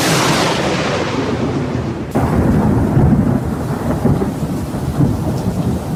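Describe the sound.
A thunderstorm with lightning and heavy rain at the foot of a mountain: a dense, loud roar of rain mixed with deep rumbling thunder, the noise surging abruptly partway through and staying heavy to the end.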